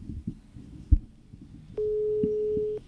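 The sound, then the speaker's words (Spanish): A steady ringback tone on an outgoing telephone call sounds once for about a second, following a stretch of faint low rumble and a single soft thump. “marquémosle a ver si nos contesta. Vamos a ver si nos contesta.”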